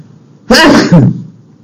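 A single sharp human sneeze during a religious lecture, a sudden loud burst with a short two-part breathy tail, set against near silence before and after.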